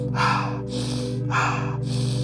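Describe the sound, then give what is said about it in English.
Deep rhythmic breathing during a guided breathing exercise, with the breath exhaled through the mouth: two loud, airy breaths with softer intakes between them, over a steady low drone. “Inhale, nose. Exhale, mouth, which will sound like this.”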